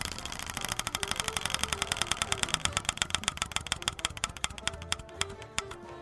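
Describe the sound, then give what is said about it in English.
A prize wheel spins for NFL award picks, giving off rapid, even ticking clicks that gradually space out and slow toward the end. “The wheel is ready. Are you ready? We are going to be spinning for NFL awards.”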